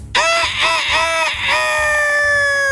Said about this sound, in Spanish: este gallo era tan flojo que cantaba a las 11 de la mañana.